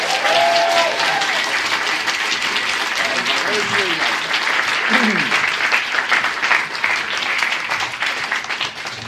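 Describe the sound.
Studio audience applause welcomes guest Paddy Ashdown onto a show, a loud, steady wash of clapping that fills the whole clip without letting up.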